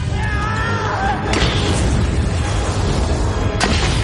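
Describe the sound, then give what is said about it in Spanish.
Clay pots thrown from a ledge burst against a dragon in a fantasy film scene, two sharp, bright cracks standing out over a dense, continuous low rumble. “Desde una repisa le lanzan vasijas que explotan contra él.”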